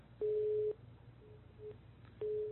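A telephone busy tone after a dropped call, with short, steady low beeps repeating at intervals through a thin, narrow-band phone line and faint tone fragments between them.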